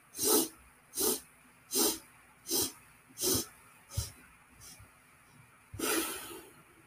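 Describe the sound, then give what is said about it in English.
Breathwork exercise: a series of short, sharp sniffing inhales at an even rhythm, followed by one longer, breathy exhale. Each sniff is a brief hissy burst, and the final breath out is broader and fuller. “It's not going to be 1 inhale. It's going to be in 8 small sniffs. And exhale is going to be in 1 breath out. Okay, so I'll show how it's going to look.”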